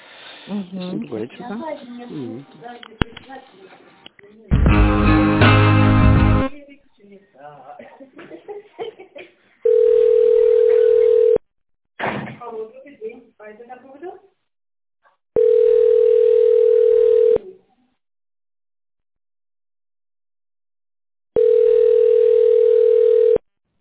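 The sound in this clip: Telephone line tone as a business call is transferred to another staff member: three long, steady beeps separated by pauses, coming after people talk and chuckle on the line.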